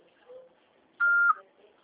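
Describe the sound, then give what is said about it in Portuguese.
An answering machine beep: one steady, mid-high electronic tone lasting about a third of a second, loud and clean against near silence, ending in a short burst of noise. “Após o sinal, fale o seu nome e deixe o seu recado.”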